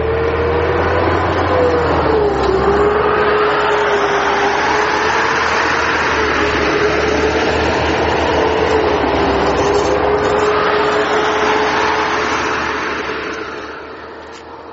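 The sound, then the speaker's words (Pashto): A convoy of armoured vehicles and trucks drives past in a loud, continuous roar of engines and heavy rolling rumble with a steady droning tone. The noise holds unbroken before tapering off at the end, with no talk. “د زغروالو او بارسو موټرو کاروان د مارجې د مرکز په لوري ولاړی”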